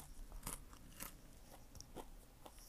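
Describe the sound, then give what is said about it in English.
Crunchy biting and chewing of a hot mini pizza cooked in an air fryer: a few crisp, faint crunches spread over steady low background noise, with no talk. “It's a mini pizza, like the ones that you could put in like in the air fryers, and it's really hot right now, so I'm waiting for it to cool down. I'm eating, it's so good.”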